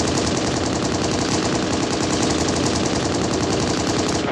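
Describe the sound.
Rapid automatic gunfire from a video game runs as a dense, loud, continuous burst of fast shots for about four seconds.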